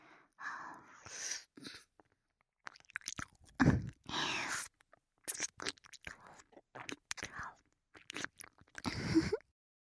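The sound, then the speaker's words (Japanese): ASMR teeth nibbling: teeth grip and rub while biting over and over, giving many short, crisp, crunchy bites. The bites are soft and close, come in irregular clusters and are separated by brief silent pauses. “挟んだ歯でコリコリって何度もこするように噛んで”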